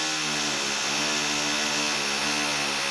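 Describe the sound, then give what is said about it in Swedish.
Drilling grinds on as one continuous, loud buzzing roar with a steady motor whine, without pauses or voices. “medans de borrar så kör vi lite pausmusik”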